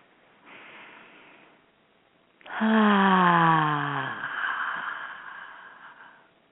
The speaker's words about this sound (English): So let's take some deep breaths.